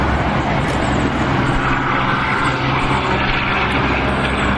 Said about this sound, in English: That sound you hear over there is Highway 26, traffic heading east and westbound to Portland and to the coast